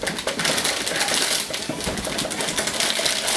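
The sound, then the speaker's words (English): Packaging for an Intel Core processor being unwrapped, a steady run of rustling plastic mixed with small, quick clicks and taps at moderate loudness, with no talk. “Now the first stage is to install the processor onto the motherboard, which means we'll unwrap that and then we'll unwrap them.”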